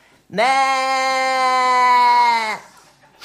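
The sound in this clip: A human voice imitates a sheep's bleat in one long, loud, nasal cry, holding a steady pitch with a faint waver for about two seconds before cutting off abruptly.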